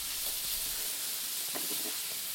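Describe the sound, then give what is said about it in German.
Diced onions sweating gently in a pan, giving a soft, steady sizzling hiss with a few faint crackles, quiet and without talk. “Jetzt schwitzen wir im Prinzip hier die Zwiebelwürfel schön glasig an. Also wir wollen es ja in dem Fall jetzt nicht anbraten, sondern wirklich nur glasig anschwitzen.”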